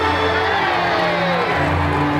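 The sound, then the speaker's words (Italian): A crowd giving three cheers for Winston Churchill: loud, dense cheering and shouting that holds steady without a break. “Signore e signori, c'è solo una cosa che posso dirvi ora. Tre urrà per Winston Churchill!”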